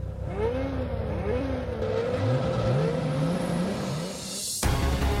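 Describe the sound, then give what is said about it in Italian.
A Ferrari sports car engine revs and accelerates in repeated rising and falling sweeps of pitch. The steady, loud roar plays without talk and shifts abruptly just before the end. “Bella macchina. Quanto sta di listino una di queste? Più di quanto ti puoi permettere. È una Ferrari.”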